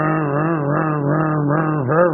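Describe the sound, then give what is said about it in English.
A voice imitates the loud motor of a church projection screen, producing a continuous buzzing, droning hum held at a steady low pitch with slight wavers and a small rise near the end. “But the problem was the motor on that screen was so loud. It would be going,”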